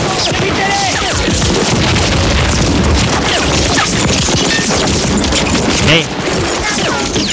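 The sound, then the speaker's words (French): Machine-gun fire in wartime combat: a dense, loud, continuous barrage of rapid cracks and booms, with only a brief dip near the end. “Eux aussi se font tuer à coups de mitraillette.”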